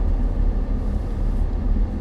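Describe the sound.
A car being driven produces a steady, low engine and road rumble that continues without distinct events and with no voices.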